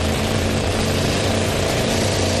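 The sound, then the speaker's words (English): An engine roars at high revs as wheels spin on a dusty surface, a loud, steady, unbroken drone throughout. “The engine's revved up and those wheels are really spinning. Look at that, look at the dust fly.”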